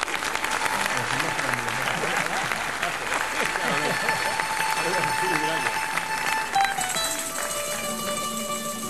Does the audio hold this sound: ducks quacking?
no